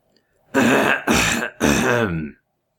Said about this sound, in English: as the sexual tension between the two kind of starts filling the room, who clears their throat?